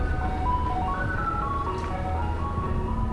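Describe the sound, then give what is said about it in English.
Ice cream truck driving through a quiet New Orleans neighborhood, its tinkling chime melody playing steadily over a low engine rumble. “an ice cream man drives a distance before there's someone to spend a dollar.”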